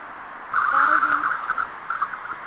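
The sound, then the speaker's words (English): A car drives by. A muffled engine and tire whine swells for about a second, then keeps on more unevenly as it passes. “Somebody driving.”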